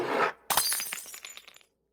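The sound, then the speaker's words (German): Cups fall off a table and shatter on the floor: a brief rushing whoosh, a short gap, then a loud crash of breaking crockery followed by a scatter of clinking shards that dies away within about a second. “Die Tassen rauschen hinab und zerschellen am Boden.”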